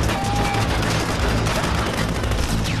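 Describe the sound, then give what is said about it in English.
Dense gunfire erupts in an action film scene: a loud, continuous barrage of overlapping shots and blasts with no clear pause, steady in level throughout. “And everyone just starts shooting everyone else.”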